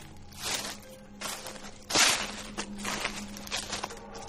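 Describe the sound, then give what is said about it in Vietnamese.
Rustling footsteps crunch through dry leaves at night, a few irregular steps of moderate loudness, with one sharper, louder step near the middle. “chỉ còn mơ hồ nghe tiếng bước chân sột soạt”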